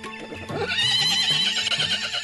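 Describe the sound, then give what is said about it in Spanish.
A horse neighs loudly, a high, wavering whinny lasting about two seconds with no other sound. “¡Oh, caballo!”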